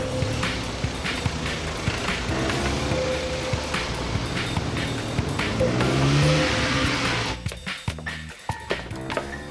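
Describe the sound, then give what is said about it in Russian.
A foreign-made car arriving on the street outside: a steady engine rumble and road noise that swells around the middle, then breaks into rougher, uneven sounds near the end. “На улице приехала иномарка.”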